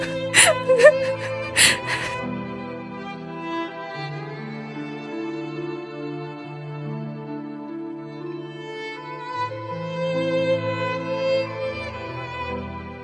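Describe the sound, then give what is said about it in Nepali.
A woman crying: a few sharp, broken sobs at the start, then long, wavering, moaning wails that continue at a steady, moderate level. “अब तिमी नरौ त, म यसरी हिँड्ने बेला यसरी रुनु हुँदैन,”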